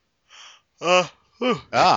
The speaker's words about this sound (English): Excuse me, I'm sorry. I was in the yawn.